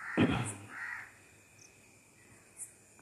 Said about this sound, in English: see those birds, the sounds, early bird.